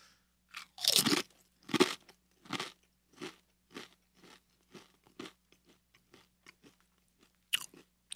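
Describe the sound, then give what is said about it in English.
Crunching of a spicy chip being eaten, with many crisp bites and chews in an uneven rhythm, loud at first and then growing fainter and sparser, with one last sharp crunch near the end. “And you can't eat in silence. It just tastes like a chip.”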